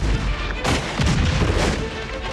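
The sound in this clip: Heavy gunfire erupts in a battle after an order to fire: dense, loud, overlapping shots and booms that run together without clear gaps, with no voices.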